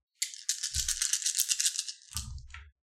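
Dice rolled for a tabletop role-playing game: a long, bright clattering rattle, then a second, shorter burst of rattling.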